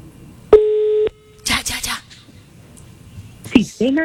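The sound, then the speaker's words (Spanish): A telephone call tone sounds while a call is being dialed: one steady, mid-pitched beep held for about half a second, followed by people talking and whispering. “Va, está llamando.”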